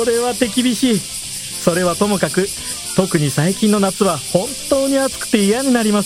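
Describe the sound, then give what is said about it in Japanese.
Cicadas droning in the summer heat, a thin, steady, high-pitched buzz that continues faintly under a Japanese conversation. “せめてこの暑苦しいセミの鳴き声だけでも静かになれば気分だけでもちょっとはマシになるんですけどね。”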